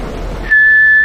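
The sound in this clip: A person whistles one sustained, clear note after a brief stretch of low rumbling noise. The pitch holds steady and the note stays strong until the end.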